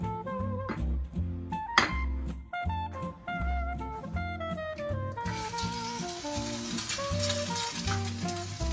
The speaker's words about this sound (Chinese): 这个油够不够？够了。 可以煎。你会煎鸡蛋吗？ 我会。